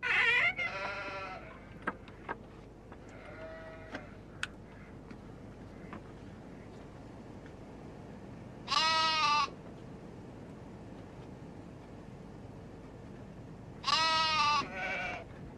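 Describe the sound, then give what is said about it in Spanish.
A lamb bleats in a few separate, nasal, wavering calls spaced well apart, with faint ticking in the quiet background between them. “Este es mi cordero. Es muy tierno.”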